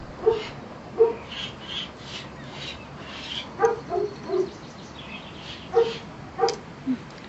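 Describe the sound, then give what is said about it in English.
Upset dogs give several short, high barks and yips at irregular intervals over a quiet, steady background. “Dogs is a little upset because we didn't include them.”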